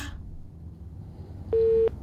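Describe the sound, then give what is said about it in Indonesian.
A single steady telephone signal tone sounds loudly for about a third of a second, a plain sustained beep rising over a low, constant background rumble. “Ini ada sinyal telepon lagi sambil saya terima dulu telepon.”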